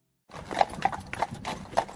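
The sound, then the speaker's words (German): Hooves of two Mecklenburger horses pulling a carriage along a street, a few crisp clip-clop strikes in a loose rhythm after a short silence. “Die Pferde wechseln vom rhythmischen Trab in den langsamen Schritt und biegen rechtwinklig in die Schönbeker Allee ein.”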